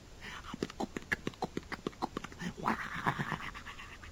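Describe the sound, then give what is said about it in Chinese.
Horse hoofbeats: a quick, rhythmic run of many sharp clip-clop beats, followed by a rougher, louder, noisier stretch of trampling. “可是忽然间他就听着，远处有马蹄声。”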